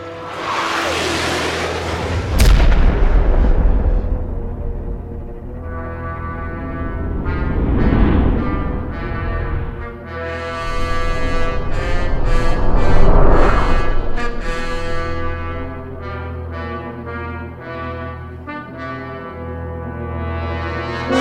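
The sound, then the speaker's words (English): A sci-fi torpedo launch and explosion effect: a sharp, loud burst followed by deep rumbling swells that rise and fade over a sustained droning tone, with no talking. “Fire the no-man torpedo, Mr. Goffrey. No-man torpedo away,”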